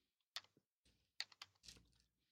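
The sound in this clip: Sparse, irregular keystrokes on a computer keyboard: a handful of quick, light clicks separated by short pauses, faint and with no talk over them.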